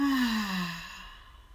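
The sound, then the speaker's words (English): A loud, voiced exhale during a gentle guided neck stretch, released as a single long breath whose tone slides downward in pitch and gradually fades. “Deep breath in. And then a loud exhale.”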